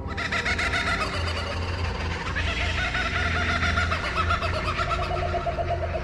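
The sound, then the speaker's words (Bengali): A night bird in the mountains calls sharply: shrill, piercing calls repeat densely and steadily for several seconds, with no voices. “একটা রাতচরা পাখি ডেকে উঠল তীক্ষ্ণ স্বরে”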